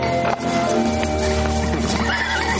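A restless white mare whinnies loudly while galloping in a stable yard, the high neigh ringing out over a steady clatter of hooves.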